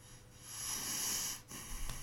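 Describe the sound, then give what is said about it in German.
A voice imitates breathing noises: a drawn-out, wheezing, snorting breath swells and then fades, followed by shorter rasping puffs, all fairly quiet with no talk. “Ich mache nur die Atemgeräusche, die du gemacht hast.”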